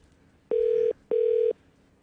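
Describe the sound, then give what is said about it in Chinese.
A telephone signal while placing a call: two identical steady single-pitch beeps, each under half a second, separated by a short gap. They are clear and loud, with no talking. “咁我哋呢个时候咧，亦都继续啦，打电话啦。”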